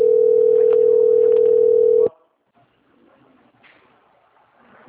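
A steady single-pitched telephone tone plays as a bank customer-service call is transferred to quality control. The tone holds level for about two seconds, then cuts off abruptly into faint line noise.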